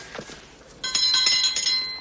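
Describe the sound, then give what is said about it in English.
A small hand bell rung at a door gives a bright, sustained jingling with rapid repeated strikes, preceded by a few soft taps. “rings a small bell and knocks”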